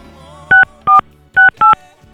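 Dialing tones of a telephone number being dialed: four short, loud two-tone beeps at an even pace, separated by near silence.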